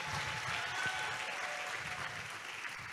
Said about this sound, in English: Let's put hands together for him. Wonderful.